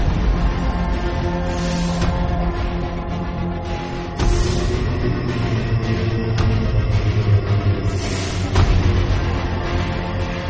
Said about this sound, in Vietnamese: Chiếc xe tải chạy ngang qua khiến Tùng hoàn hồn trở lại.